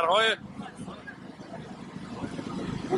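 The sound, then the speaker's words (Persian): Power generators running during a wartime blackout by a closed bazaar near a shrine in Qom: a steady, low engine drone that continues without a break, with a voice heard briefly at the start. “موتوربرهای که صداشون مغز آدمو دیوونه میکنن.”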